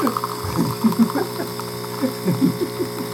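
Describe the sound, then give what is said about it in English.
An espresso machine brews espresso with a loud, rhythmic mechanical chatter, a ratcheting, pulsing buzz that repeats in quick, uneven bursts throughout. “That's the sound of espresso.”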